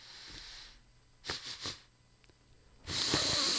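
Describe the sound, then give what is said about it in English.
A person imitates sniffing with three quick, quiet sniffs in a row, then a longer, louder breathy sniff. “and he started sniffing like that”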